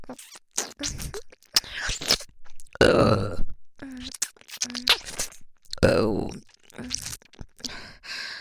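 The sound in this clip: Close-up burping right beside the ear, with two long, deep belches standing out among breathy sighs and softer mouth sounds, separated by short pauses.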